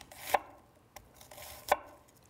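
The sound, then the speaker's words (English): A knife chops half an onion into medium half-moon slices with a few sharp, fairly faint knocks at uneven intervals, and no talk. “So we're going to chop up half an onion. So chop it this way.”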